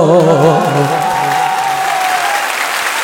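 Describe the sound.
An audience claps along at a Persian religious gathering honoring Hazrat Zahra. Loud, continuous clapping from many hands runs for three seconds, with a sustained voice carrying wavering tones over the first moments.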